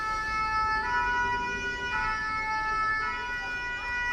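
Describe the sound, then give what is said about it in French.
A fire engine siren blares as its loud alarm warns drivers to clear the way. It is a continuous, piercing high electronic wail with slowly shifting tones that holds steady throughout, with no voices. “C'est le son d'une sirène de pompier. L'alarme très très forte qui prévient les automobilistes que le camion va passer parce que, il doit aller sauver des gens et donc ils doivent se pousser.”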